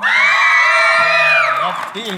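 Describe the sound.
Loud cheering and whooping from a live audience at a show in the haunted Piper's Opera House, a sustained roar of yells and shouts that thins and tapers in the final moments.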